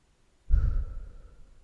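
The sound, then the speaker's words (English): A single breath is pushed out through the mouth during a 4-7-8 breathing exercise: a soft, airy sigh that starts abruptly and tapers off over about a second. “you exhale through the mouth for a count of 8”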